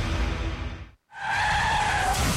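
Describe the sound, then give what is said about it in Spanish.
Car tires skid and squeal during a traffic accident: a loud rushing rumble cuts out briefly, then a sustained, steady high-pitched squeal carries on alone to the end. “Un accidente de tránsito puede cambiar tu vida en segundos.”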